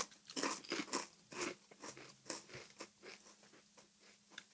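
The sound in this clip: Wavy, ridged potato chips crunch between the teeth in many crisp bites. Loud snaps come first, then settle into quicker, softer chewing, with no talking.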